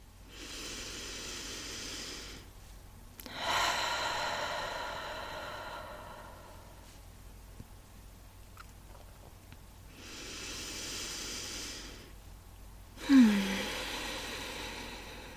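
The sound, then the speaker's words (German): Slow, deep belly breathing: four long, airy breath sounds alternating in and out with quiet pauses between them, soft and hissing, with the last breath sharper at its start and no talk. “Also wir machen mal so drei Atemzüge mit bewusst Bauch nach außen und Bauch wieder nach innen und dann noch ein paar Atemzüge ganz natürlich laufen lassen.”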